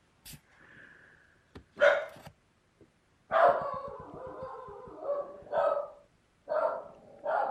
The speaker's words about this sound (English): you can probably hear my dog barking in the other room